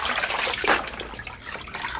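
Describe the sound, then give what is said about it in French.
Water pours and splashes steadily as someone standing is rinsed in a shabby room with a tiled floor, a continuous hissing rush with slight surges, fairly loud, with no talk. “Mets-toi debout, je vais te rincer.”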